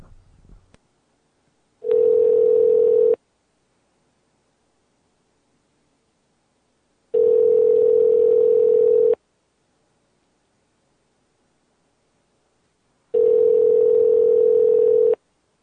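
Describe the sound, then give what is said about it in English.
A telephone ringback tone plays on an outgoing call, made of three steady two-second buzzing tones separated by roughly four seconds of silence, with no voices. “Dialing.”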